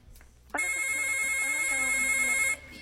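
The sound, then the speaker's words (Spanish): A telephone rings for an incoming call, giving one steady, sustained electronic tone of about two seconds at an even pitch. It is fairly faint and starts and stops abruptly, with no voices during the ring. “¡Tenemos llamada!”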